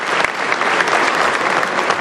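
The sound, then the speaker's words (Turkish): Applause in the general assembly of the Turkish parliament: loud, dense clapping continues steadily throughout, with a few sharper individual claps standing out. “Daha sonra alkışlar başladı.”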